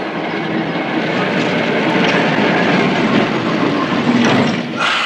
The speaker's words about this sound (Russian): К остановке подходит трамвай.